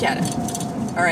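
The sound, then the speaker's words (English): Glass mason jars jingle-jangle on a car seat during a drive home, a light clinking rattle over steady road rumble while a voice talks. “That is the sound of my mason jars in the seat beside me jingle-jangling all the way home,”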